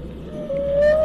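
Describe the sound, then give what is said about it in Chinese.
A whale call, a single sustained tonal moan that begins midway and holds a steady mid pitch with a slight upward drift, heard over a low rumbling background. “越来越近了。是什么？那是鲸，别怕”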